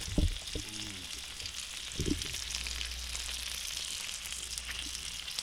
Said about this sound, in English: We're going to go in for a mic close-up on the bacon. Oh, there you go. Get it. Crank it up, everybody. We've got bacon background coming at you.